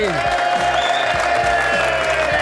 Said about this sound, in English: We've got some guests, ladies and gentlemen. Please give a lovely welcome to Ian Moore and Omid Djalili.